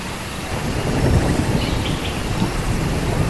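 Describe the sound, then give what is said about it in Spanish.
Steady rain falls in a dense, continuous hiss with a rough low texture, unchanging in level throughout. “¿Sí escuchas la lluvia?”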